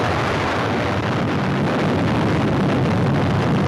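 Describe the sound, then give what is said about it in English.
A distant thermonuclear weapon detonation of about ten megatons makes a deep, continuous rumbling roar, steady and wind-like from start to finish, with no voices. “Brighter than 500 suns, America's most highly developed thermonuclear weapon.”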